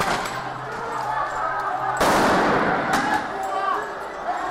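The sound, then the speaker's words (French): A sting-ball dispersion grenade explodes at a street protest: one sudden, loud, sharp blast cuts through a constant roar of crowd noise and voices, followed by a smaller crack a moment later. “Bombe de désencerclement.”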